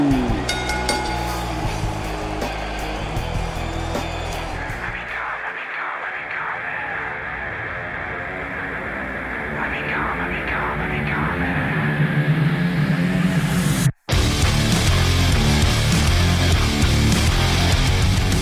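A loud rock song plays continuously, dense with guitars and a heavy low drum beat. It drops out for a brief instant near the end and then resumes at full strength.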